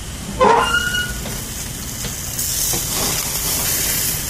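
Burgers sizzling as they fry, a steady hissing crackle that carries throughout, with a brief sharper burst near the start before settling back into an even sizzle.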